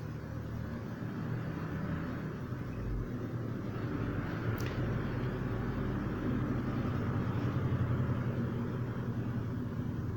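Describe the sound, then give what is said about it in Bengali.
Traffic noise from passing cars forms a steady, low roar with no distinct single pass-by. It holds at an even level throughout, with one brief, sharp high click near the middle. “এই গাড়ি ঘোড়ার আওয়াজগুলা খুবই বিরক্তিকর”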